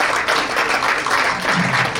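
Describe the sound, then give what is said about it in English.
Applause rises from the crowd at a boxing event in Madison Square Garden after a fight: a loud, continuous, noisy wash of clapping and crowd sound filling the whole moment. “let's give, on that note, let's give Ali an opportunity just to speak, and applause also”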